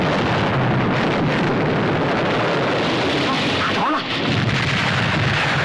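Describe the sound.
A warship's main gun cannon firing during a naval battle, heard as a continuous, loud, heavy roar and rumble with no separate booms standing out.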